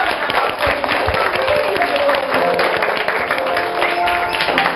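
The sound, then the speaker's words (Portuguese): An audience applauds a guest with loud, dense, sustained clapping. Individual claps crackle through the wash at a steady level, with faint tonal sounds underneath. “Palmas para a nossa convidada que participou.”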